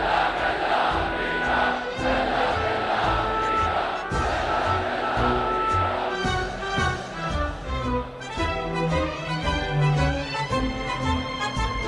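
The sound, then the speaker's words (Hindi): A protest crowd in the streets of Baghdad chants anti-US and anti-Israel slogans, loud rhythmic massed voices mixed with music and punchy percussive beats that pulse throughout. “Baghdad की सड़कों पर जिस ओर नजर जा रही थी, उधर जहां एक ओर इराकी झंडे दिखाई दे रहे थे, वहीं दूसरी ओर अमेरिका और इसराइल विरोधी नारों की उनकी धुन में बजते संगीत।”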